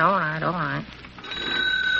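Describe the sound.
An old telephone rings as a call is placed. A man's voice is heard first, then a steady, even ringing tone starts partway through and holds to the end.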